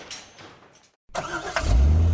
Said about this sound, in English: Man, I'm late. This traffic is terrible.